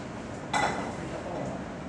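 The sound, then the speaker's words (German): A chef slicing truffles for risotto in a kitchen: a single brief, bright clink-like cut stands out against steady kitchen background noise. “Er schneidet jetzt die Trüffel für das Risotto.”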